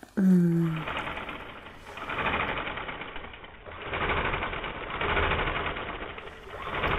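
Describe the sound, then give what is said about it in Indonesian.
A sewing machine stitches sheets of patchwork fabric, its whirring motor running in several long surges that swell and ease, with a brief tone at the very start. “Terus setelah menjadi lembaran-lembaran seperti ini, ya. Selanjutnya kita jahit kan, Bu? Iya, betul, dijahit.”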